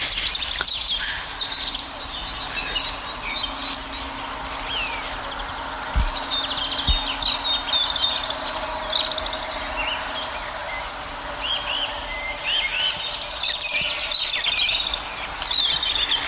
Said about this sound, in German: Unser Rotkehlchen, die so richtig in Fahrt kommen gerade. Also die Rotkehlchen übertrumpfen sich gegenseitig.